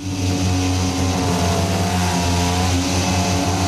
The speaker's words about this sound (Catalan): Aquesta és la moto de Bastianini.